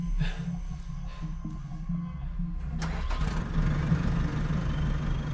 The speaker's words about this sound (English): By now, the backhoe has started going again.